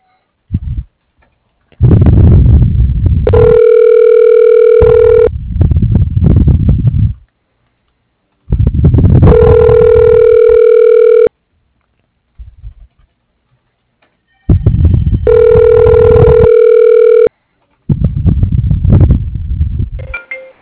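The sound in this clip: Telephone line tone after a call disconnects: three bursts of a steady, humming electronic tone, each a few seconds long, alternating with rough, noisy crackling stretches and short gaps of silence.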